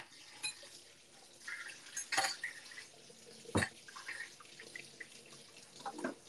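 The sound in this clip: Tap water runs faintly while a kitchen sink is washed, broken by a few sharp knocks and clatters against the basin.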